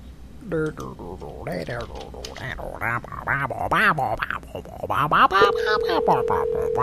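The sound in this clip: Steady telephone dial tone while a call is being placed, a single unbroken mid-pitched hum starting late and running to the end beneath continuous talking voices.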